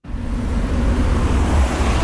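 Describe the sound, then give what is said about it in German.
Traffic roars at a busy road intersection where motorway, city and regional routes meet, carrying almost 25,000 vehicles a day. A dense, continuous low rumble holds at a steady level, with no single vehicle standing out. “Wir sind an der Kreuzung in der St. Galler Kreuzbleiche. Da fahren die Leute auf der Autobahn Richtung Gossau oder Rorschach oder Richtung Innenstadt oder aus der Stadt raus Richtung Appenzellerland. Jeden Tag fahren hier fast 25'000 Fahrzeuge”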